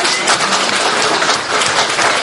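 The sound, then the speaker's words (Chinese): A church audience clapping their hands in praise of God, a loud, dense wash of many hands clapping together without a break. “每个人向神拍手，将荣耀归给神。”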